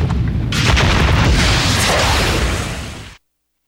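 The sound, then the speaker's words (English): Missile launch from a warship, a film sound effect: a loud, sustained roaring blast that swells within the first half second, holds steady, then cuts off abruptly after about three seconds. “Weapons authorized. Prepare to fire. On my count. 5, 4, 3, 2, 1. Missile away.”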